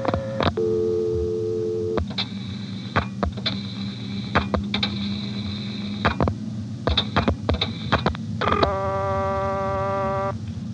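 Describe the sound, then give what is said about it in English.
Telephone line sounds while dialing the operator and local service codes: steady service tones, sharp dialing clicks and pulses, and multi-tone signals near the start and end over a low hum. “I'll dial the operator, 670, to drop the director, and 12.”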